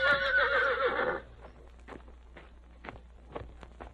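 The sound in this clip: A horse gives a loud, shrill whinny with a wavering pitch that lasts about a second. A scattering of faint hoof clops and knocks follows on a quiet background.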